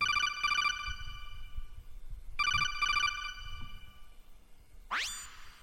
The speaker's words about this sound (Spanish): Después de tantos meses, lo llamé y pude grabar la llamada. Si queréis, pues procedo a reproducirla.